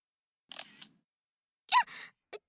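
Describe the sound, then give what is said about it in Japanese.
A camera shutter snaps as a photo is taken, in a few short, crisp bursts separated by silence. “急に何をするんですか。許可なく人の写真を撮るのは犯罪ですよ。”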